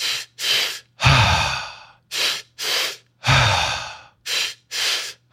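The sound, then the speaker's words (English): Two-part breathing exercise: two quick sniffing inhales, then a long sighing exhale. The pattern repeats twice, and a final pair of inhales ends it. No speech. “We can do a two-part breath. We can also just go into another CCI, the Curious Compassionate Inquiry. The two-part breath looks just like this.”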